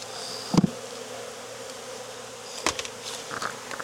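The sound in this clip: Honey bees buzz at an open hive in a steady, dense drone that holds throughout, broken by a couple of sharp knocks.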